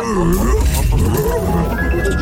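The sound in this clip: A dog growls in a low, rough, rumbling snarl that stays loud and steady throughout the short moment, with a harsh, voice-like edge.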